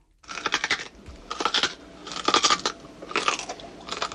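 A crunchy nut being chewed with dentures: loud, rhythmic crunching in several dense bursts with short pauses between, heard alone without talk.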